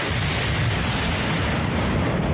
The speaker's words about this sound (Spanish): Con esta explosión, las Fuerzas Armadas marcaron el inicio de un nuevo operativo contra la minería ilegal en la Amazonía ecuatoriana, esta vez en la provincia de Napo.